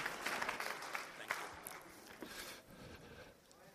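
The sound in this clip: A church audience applauds to welcome a speaker, with clapping that starts lively and gradually thins and fades toward the end.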